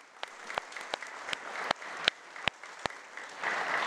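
Audience applause for the orchestra on a live anniversary special, heard as a steady, evenly spaced beat of loud claps over a softer patter that swells into fuller clapping at the end.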